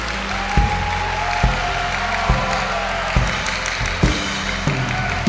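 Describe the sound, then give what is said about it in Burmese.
An audience applauds when asked to clap. Dense, steady clapping carries on evenly for several seconds, with low thuds recurring about once a second beneath it. “လူများအပေါင်းတို့လက်ခုပ်တီးကြလောအဲအားလုံးလက်ခုပ်တီးတယ်”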